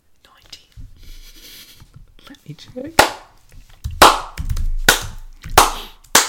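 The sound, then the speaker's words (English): A slow clap: a handful of sharp, single hand claps spaced under a second apart, each loud and crisp, following a stretch of quiet, hushed talk. “Slow clap, good work.”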